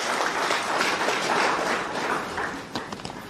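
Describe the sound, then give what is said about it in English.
A crowd applauds a police commissioner of the Namibian Police Force at a public address: dense, continuous clapping at a steady level that thins out and grows patchier toward the end. “Can we please give Commissioner Clay a round of applause?”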